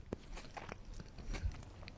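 Soft biting and chewing of a bite of apricot chicken, faint, with a few sharp crunchy clicks scattered through an otherwise quiet stretch and no talk.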